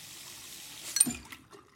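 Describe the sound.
Water running from a bathroom sink faucet: a soft, steady hiss of flow that gives way to a few brief knocks and a low thump near the end.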